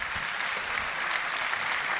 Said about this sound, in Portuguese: Um grande aplauso para este senhor que me acompanhou toda a vida.